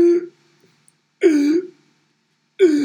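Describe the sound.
A voice imitates a child's strained, gasping inhale while crying after waking from sleep with trouble breathing. A few short, raspy voiced gasps are separated by silence, each with a wavering pitch.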